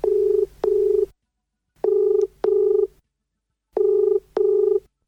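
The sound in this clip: A telephone ringback tone sounds in three double pulses: six steady, mid-pitched beeps set in pairs, with silent gaps between the pairs and no talk.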